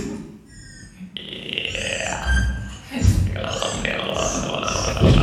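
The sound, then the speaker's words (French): Throaty mouth noises, burps, grunts and gurgling voiced tones, made as experimental music by a German duo, shifting irregularly in pitch and texture with short breaks between louder bursts. “Ce sont des sons, des bruits de bouche.”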